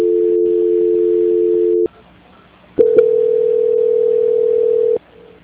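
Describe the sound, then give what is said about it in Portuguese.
A telephone call is put through a transfer: a steady dial tone holds, breaks off into a short gap, then a second steady tone at a slightly higher pitch sounds alone until it cuts out. “Só um minutinho que eu vou transferir a ligação. Transferência.”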